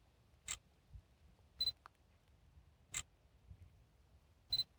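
Camera equipment being taken out and handled during ship-watching on the Elbe gives a few sharp, crisp clicks and clacks, some doubled, spaced irregularly over near silence.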